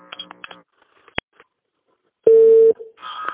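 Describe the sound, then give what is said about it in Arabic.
Telephone tone as a call is hung up and redialed: a sharp click, then a brief steady mid-pitched tone, with talking before and after. “يعني أقطع اتصال وأعيده بكم.”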